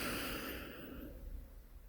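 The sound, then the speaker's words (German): A deep inhale during a guided breathing exercise, a faint, soft rush of airflow that is strongest at the start and gradually thins out. “Und nochmal einatmen.”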